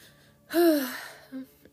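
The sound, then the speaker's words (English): A deep breath drawn in sharply with a voiced, gasp-like tone: one loud breath, then a short, quieter breathy sound after a pause. “Excuse me. Just trying to take a deep breath.”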